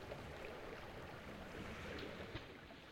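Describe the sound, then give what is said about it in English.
Waves lap against the wooden timbers of a dock in a constant watery wash, with wind noise mixed in and a soft splash near the end. No voices are heard. “The waves lapping at the timbers. A storm brewing in the distance.”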